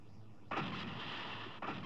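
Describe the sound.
Booming fireball blast explosion, a sudden loud burst that opens into a sustained roaring rumble, then a second blast striking near the end.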